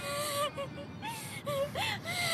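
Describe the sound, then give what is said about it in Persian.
A girl crying in high, tremulous whimpering sobs, several short wavering wails with bending, rising and falling pitch, broken by brief catches of breath. “گریه نکن دخترش”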